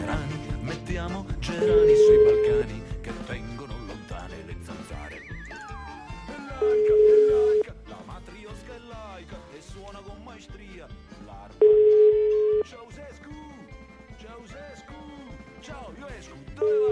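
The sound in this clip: Ringback tone on an outgoing telephone call: long, steady single-pitch tones repeat at even intervals, with voices and other sounds running underneath.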